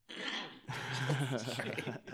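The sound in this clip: Someone clears their throat with a harsh, gravelly rasp: a short rough burst, then a longer rumbling clear.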